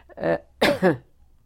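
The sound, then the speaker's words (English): A few short, harsh coughs in quick succession, one brief burst followed by a closer pair, moderately loud and otherwise alone. “shouldn't cough into that”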